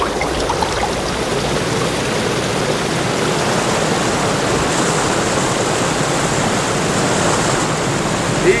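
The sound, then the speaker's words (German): A rushing river current carries swimmers along at night. It makes a dense, unbroken roar of churning water that stays loud and even throughout, with no voices. “So trieben sie eine Weile mit der Strömung durch die nächtliche Drachenstadt.”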